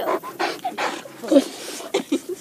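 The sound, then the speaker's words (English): A dog pants in quick, breathy bursts, broken by a few high, thin whimpers, moderately loud and uneven in rhythm. “And I sent Kenny's dog back with him for old time's sake.”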